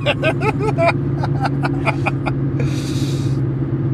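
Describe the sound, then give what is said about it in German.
A 22-year-old car whines quietly with a steady low droning hum throughout, overlaid by a run of sharp ticking clicks and a brief hissing burst. “Das ist dieses Fahrzeug, was ihr im Hintergrund leise wimmern hört.”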